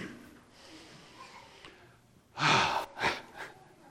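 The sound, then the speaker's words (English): One person takes a deep breath: after a quiet stretch comes a loud, rushing breath, then two shorter, softer breaths. “So let me take a deep breath.”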